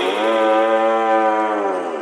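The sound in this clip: A single long cow moo, loud, steady and strongly harmonic, held for about two seconds.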